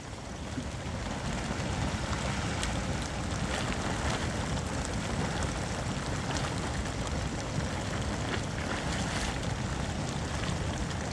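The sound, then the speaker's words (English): A geyser in Yellowstone's geothermal paint pots area gives off a dense, steady rushing hiss and a low churning roar, holding an even loudness throughout with no pauses. “we recorded lots of sounds here in Yellowstone because this geothermal area was so full of sound. So this is the sound of Blood Geyser.”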